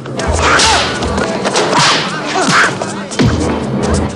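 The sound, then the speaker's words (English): Fight-scene hits from a film as a cornered woman roundhouse kicks an assailant: several sharp, whip-like swishes and heavy thuds land in quick succession, loud and punchy. “Cornered, she roundhouse kicks one assailant.”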